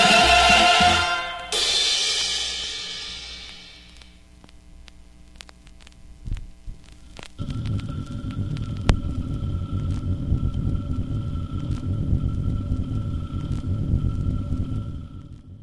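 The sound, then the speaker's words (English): A vinyl record's needle scrapes at the end of the record. Music fades out first, then a steady low hum and rhythmic throbbing crackle go on alone. “Yeah, that's the sound of a vinyl record with the needle scraping at the end.”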